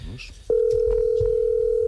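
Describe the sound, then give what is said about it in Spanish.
A steady telephone dial tone while a call is being placed: a single unbroken mid-pitched hum sets in abruptly after a brief voice and holds loud and even to the end. “Estamos llamando.”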